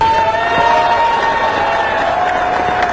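Philadelphia police officers cheering and applauding as a wounded officer is released from hospital: a continuous wash of crowd cheers, whoops and clapping, loud and steady throughout.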